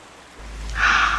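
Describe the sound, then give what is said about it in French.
Sea waves surging, a broad rushing hiss that swells in two steps and grows loud and full toward the end, with no voices. “C'est merveilleux, j'entends la mer.”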